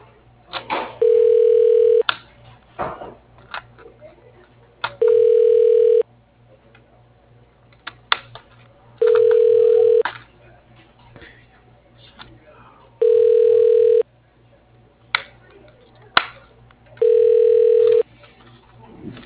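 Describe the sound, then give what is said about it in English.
A telephone line rings five times while a call is transferred to voicemail, each steady tone lasting about a second at even intervals, with faint crackling line noise and clicks between the rings. “Let me transfer you to Karen. One second.”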